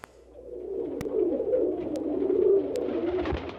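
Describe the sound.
A pigeon coos in a low, soft, continuous murmur that swells and then eases, with a few faint sharp clicks in the background.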